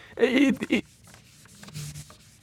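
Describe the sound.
Brisk rubbing of an eraser wiping writing off a board during a Bible lesson: a few quick scrubbing strokes at the start, then softer, fainter rubbing trailing off.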